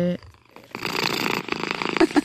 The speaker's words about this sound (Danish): Det her, det er happy purring. Altså, det er en kat, der spinder på en glad måde.